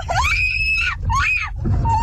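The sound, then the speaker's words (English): A woman screams from the passenger seat of a car during a road-rage confrontation, with sustained high, wavering cries in two loud bursts and a lower third, over a steady low rumble of the moving vehicle. “The victim's wife screaming from the passenger seat.”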